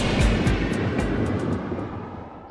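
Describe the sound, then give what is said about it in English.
An airplane taking off: a loud, steady jet roar with a broad rushing hiss that stays strong, then slowly fades toward the end, with no voices. “Attention passengers, please fasten your seatbelts, put your seatbacks and sleeping pets in their full upright position, and prepare for takeoff.”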